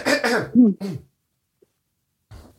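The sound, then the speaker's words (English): A person coughing and clearing their throat: a few short, rough voiced bursts in quick succession, then a faint brief sound after a pause. “I said Saskatchewan one too many times and something got caught in my throat.”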